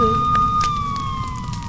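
A fire engine siren wails as a loud, steady high tone whose pitch drifts slowly downward, sounding alone for about two seconds.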